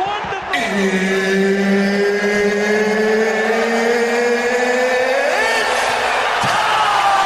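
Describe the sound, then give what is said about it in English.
A loud intro jingle for a football halftime radio show, built from sustained synthesized tones that glide and bend in long sweeping lines and keep a dense, driving layer going throughout. “Wonderful! Gets me every time. That intro is fire.”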